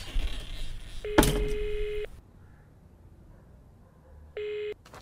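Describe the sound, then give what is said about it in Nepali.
A telephone rings on the line as a call is being placed. There are two buzzy, steady ring tones over background hiss: the first lasts about a second with a sharp click near its start, and the second is shorter. “हस् दिदी म phone गरिहाल्छु है होइन कहाँ गएर phone गर्न लागेको यहीँ गरेँ भइहाल्यो नि”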